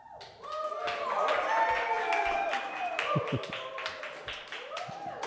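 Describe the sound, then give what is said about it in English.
Crowd applause sound effect played from a soundboard: steady, dense clapping that runs throughout while a voice speaks over it. “What was that in my headphones? It sounds like there's people. I got this new soundboard for the special effects.”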